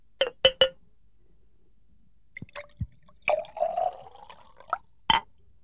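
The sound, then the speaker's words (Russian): Wine poured into the king's cup: three sharp glassy clinks open, followed by a couple of dull knocks, a short trickling pour and one final clink. “Возьми эту чашу. Это моя чаша. Слушаюсь, ваше величество. А теперь наполни ее вином.”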